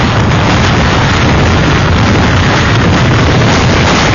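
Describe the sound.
Category five hurricane winds of over 300 km/h, a loud, dense, unbroken roar with heavy microphone buffeting throughout, with no talk.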